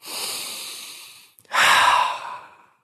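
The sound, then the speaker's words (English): Steam from a humidifier is inhaled in two long, breathy rushes. The first is steady and fades out; after a brief catch, a louder, fuller second draw swells and then tails off. “That was me inhaling humidifier.”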